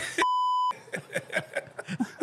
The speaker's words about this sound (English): Who keeps hitting that buzzer?